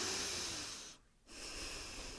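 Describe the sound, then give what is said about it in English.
A deep breath taken during a calming exercise for stress and sleep: a soft, steady airy rush that stops briefly in the middle and then resumes. It is faint, with no talk. “Just take a moment, take a deep breath here,”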